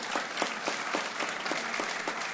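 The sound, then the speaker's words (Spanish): An audience applauding at the close of a forum: many hands clapping together in a dense, steady burst that runs throughout, with no voices. “por último pido un aplauso a todas y todos ustedes.”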